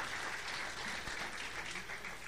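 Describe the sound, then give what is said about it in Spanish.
A church audience applauds during a sermon, a soft, steady patter of many clapping hands that holds evenly from start to finish. “Denle un aplauso al Señor, hermano.”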